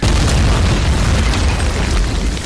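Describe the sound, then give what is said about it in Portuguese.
A bomb explosion, a loud and sustained roar of dense rumbling noise that fills the whole moment without separate blasts, easing only slightly at the end. “Nossa, não! Explode essa bomba!”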